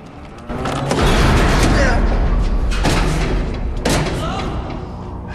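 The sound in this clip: A hidden mechanism clanks into action as a door is opened, followed by heavy booming thuds as it swings shut, big low-end impacts that rumble on beneath a voice.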